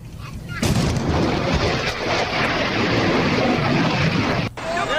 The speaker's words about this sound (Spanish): Ese fue un avión, un F-16 rompiendo la barrera del silencio.